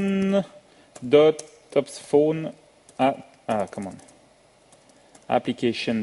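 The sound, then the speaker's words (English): Computer keyboard typing: light key clicks in quick bursts, mostly under a voice speaking in phrases with short pauses between. “So here I type”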